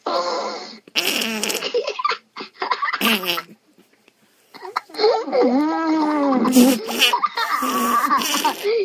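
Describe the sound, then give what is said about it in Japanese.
A fart among a group of children talking over a phone call, their lively voices, laughter and squeals filling most of the moment, with quiet gaps in between. “誰や、おなら。そうだ、これ聞こえた、ブー聞こえた。”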